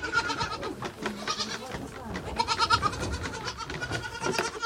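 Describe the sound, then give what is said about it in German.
Goat kids bleating, young kids being taught to drink six at a time from a bucket with six teats; many overlapping, wavering bleats in varied pitches fill the whole stretch at a moderate, steady level. “Den etwas älteren Zicklein bringe ich bei, immer zu sechst an einem Eimer mit 6 Nuckeln zu trinken.”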